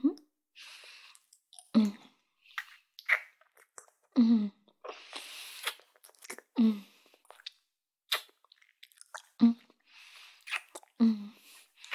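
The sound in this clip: Wet chewing and eating sounds in an intimate roleplay, many soft smacking bursts and moist mouth noises recurring at irregular intervals, fairly quiet and close throughout.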